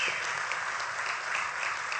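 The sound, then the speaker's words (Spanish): Applause from a church audience during a bilingual sermon, a dense, steady wash of many hands clapping at even loudness with no voices over it. “Denle un aplauso a Dios por eso. Give them an applause, please.”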